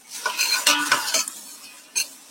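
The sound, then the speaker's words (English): A spoon stirs beet greens, beet stems and onions sautéing in a pan over medium-high heat with a pinch of salt. A few clattering, scraping strokes sound over a soft sizzle, then a last stroke comes after a pause. No voices. “Get my spoon and give that a stir. Okay, so here are my beet green, my beet stems, and my onions.”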